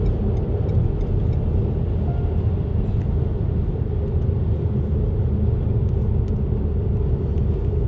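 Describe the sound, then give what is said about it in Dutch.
A car drives in rush-hour traffic on the road toward Deventer, a steady, loud low rumble of engine and road noise that holds without a break, with no talk. “Nou ja, ik zit gewoon in de spits te rijden. Dus het is, het is gewoon druk.”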